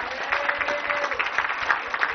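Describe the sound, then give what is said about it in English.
Audience applause at a ceremony introducing team members and coaches, a dense, steady wash of many hands clapping that stays loud and even throughout with no voices on top. “James Silla, you can clap for him anywhere”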